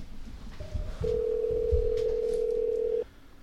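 Telephone dial tone as a call is placed: a brief tone blip, then a steady, faint, unbroken tone lasting about two seconds before it cuts off.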